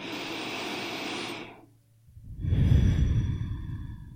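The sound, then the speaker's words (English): A deep, slow breath: a long breathy rush, a short pause, then a second, louder and fuller airy breath that trails off, with no talking. “So try it. Take a deep breath.”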